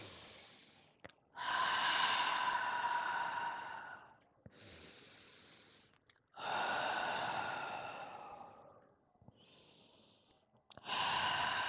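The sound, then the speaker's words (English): Slow, deep breaths taken together in a calm breathing exercise, each a long airy rush of inhaling and exhaling separated by brief pauses, soft and unhurried. “So let's take 3 deep breaths together.”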